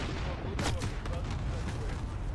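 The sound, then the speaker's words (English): Explosions and gunfire from an allied precision cluster airstrike in a military shooter video game: a faint, dense rumble with several sharp bursts scattered through. “Cluster strike ready for launch. That's the target. Yep. Hit them now. Allied precision airstrike.”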